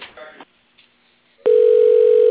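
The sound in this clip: A telephone line tone plays while a call is being transferred to voicemail: a brief voice fragment and a short pause, then a loud, steady, unbroken single tone that holds at one pitch until the end.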